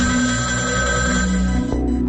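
A telephone rings for an incoming caller, a steady, continuous tonal ringing that holds at a fairly loud, even level for the whole clip.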